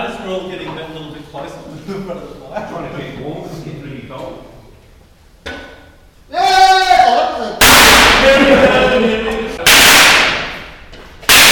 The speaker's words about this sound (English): party poppers in the fire